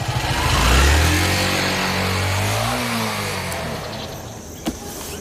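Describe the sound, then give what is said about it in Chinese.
A motorcycle rides past with a steady engine drone that swells early on, then gradually fades, with a brief knock near the end. “你说魏宝库家有的是车，这小子咋还骑台摩托呢？”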